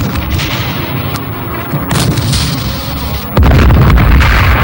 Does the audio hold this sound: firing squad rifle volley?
yes